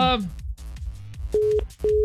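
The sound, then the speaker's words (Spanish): A phone line gives beeps after the caller hangs up and the call is cut off. Two short, steady beeps come in quick succession, with some voice and background sound before them. “colgó, ya se le cortó. Se le fue el saldo.”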